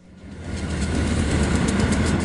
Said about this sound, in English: Dozens of trains come barreling each day across a rusty brown steel bridge that spans the Mississippi River between Iowa and Illinois. Long trains like this one,